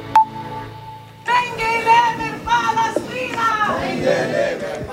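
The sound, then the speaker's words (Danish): Loud crowd of pro-Palestinian protesters at an airport, shouting and chanting together in a dense, continuous mass of voices that bursts in after a short quieter opening and stays steady to the end. “Sverige, og hun blev, som man kan høre, modtaget af en pro-palæstinensisk skare i lufthavnen.”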